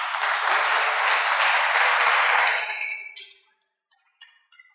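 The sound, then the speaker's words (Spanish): Crowd applause for a newly declared married couple at a religious gathering. Dense, steady clapping holds for about three seconds, then fades out, leaving a few faint ticks. “Un aplauso para ellos.”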